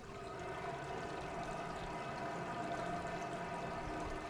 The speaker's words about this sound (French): C'est exactement le bruit des égouts que j'entendais dans mon cauchemar. C'est exactement ce bruit-là.